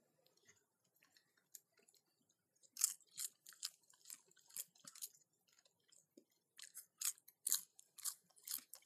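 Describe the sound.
Crunchy chewing of dill pickle flavored popcorn: soft, sparse bites at first, then many louder crisp crunches in quick irregular bursts, with no talking.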